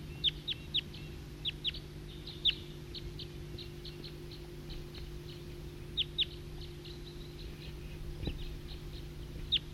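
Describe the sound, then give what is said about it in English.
A flock of wild birds calling: many short, sharp, high chirps in irregular bursts over a steady low hum. “It's recording flock of wild birds.”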